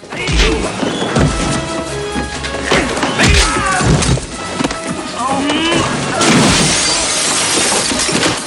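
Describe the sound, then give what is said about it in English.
Glass shatters loudly as a man is shoved into a glazed cupboard during a kitchen fight. Several heavy crashes and thuds break up the sharp, bright breaking-glass noise, and the loudest smash comes near the end. “Forrest has shoved the man in black towards a glazed cupboard.”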